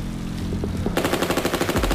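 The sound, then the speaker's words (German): Submachine gun fire from two men: a low rumbling hum gives way abruptly to rapid automatic fire, a fast, steady rattle of shots that continues loudly to the end. “Der erste Mann eröffnet das Feuer, der andere ebenfalls keine halbe Sekunde später.”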